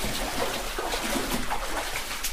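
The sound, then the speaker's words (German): A captured spring feeds water into a flooded cave system, where the water stands about 20 cm deep. The flow makes a steady, even rushing hiss throughout, with no voices. “Das ist eine Quelle, die hier hinten gefasst wird, die hier in das System hineinkommt.”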